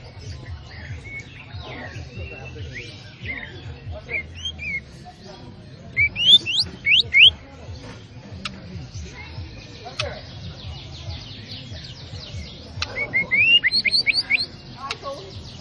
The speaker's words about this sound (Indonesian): Ya kenari kenari bobo. Hitungan satu. Untuk kenari.